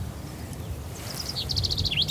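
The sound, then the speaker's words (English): A chaffinch sings in French farmland, a run of high, sharp chirping notes that grows busier in the second half, over a low, steady rumble. “What's that one we can hear? It's a buzzard. No, the little bird. That's a little bird. This one. Yeah. It's a chaffinch.”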